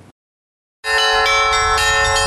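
Church bells of a monastery ring out loudly for a religious procession bringing an icon near the village of Căpriana, entering abruptly after a short silence with dense, overlapping metallic strikes that sustain a continuous clanging wash.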